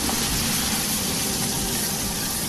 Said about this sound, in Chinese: 泡好的笋干与白蘑干切片，高汤里煨透，再加重油慢火翻炒。